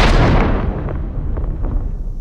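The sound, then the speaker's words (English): A loud roaring blast as missiles are fired at the enemy, one heavy burst at the start that decays into a rumbling, crackling tail over about two seconds. “I want you to fire as many missiles at the enemy. Do you copy? Copy that, sir. Ready to fire at the enemy. Okay, fire them right now.”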